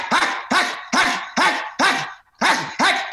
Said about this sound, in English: That is a dog that looks like it bites, okay? Uh-huh. All right? You can actually, you see how much is going into the bark?